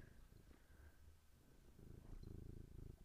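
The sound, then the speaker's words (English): A cat purrs in a soft, steady, low rumbling rhythm that is quite faint, and a person briefly speaks a single word over it. “And that is the sound of a cat purring.”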